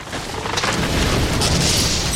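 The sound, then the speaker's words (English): A sci-fi disruptor shot blasts the base of a wide tree trunk, a booming burst that swells quickly into a sustained, loud, roaring rush of noise with no voices. “He still had his disruptor in his hand, held up out of the mud to protect it. He aimed carefully and shot a nearby tree dead square at the bottom of its wide trunk.”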